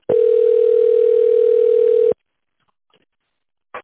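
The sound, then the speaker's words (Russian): A telephone ringback tone during a call transfer: one steady, continuous beep of about two seconds, followed by silence and a short faint click near the end. “Выполняется перевод звонка, ожидайте.”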